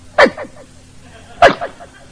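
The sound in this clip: A voice imitates a dog begging for steak and hamburger at a window, making two short, whining yelps about a second apart with quiet between them.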